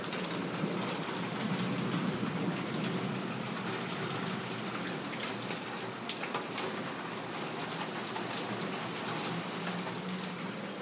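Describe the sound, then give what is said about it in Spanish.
Rain falls in Tlajomulco as a steady, dense patter of drops, a loud and continuous hiss that holds unchanged throughout with no voices. “que llueva en Tlajomulco es algo impresionante. Escuchen.”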